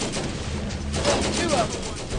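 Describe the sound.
Gunfire in the video game Borderlands, a dense run of rapid shots with a voice mixed in.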